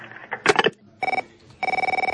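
A telephone bell rings in two loud bursts of rapid trilling, a short one followed by a longer one, with a few brief clattering knocks just before.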